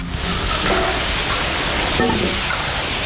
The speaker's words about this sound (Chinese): 热锅烧油，新鲜的猪肉便可以入锅爆炒